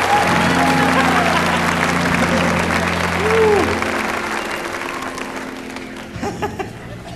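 Sustained applause from an audience in Florence, Alabama welcomes a vocal group's lead singer. The clapping is loud and dense, holds steady over a low hum, then slowly thins and fades toward the end.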